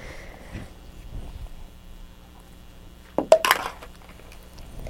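Spoons handled, producing a short cluster of a few bright metallic clinks partway through, surrounded by near-quiet with faint rustling.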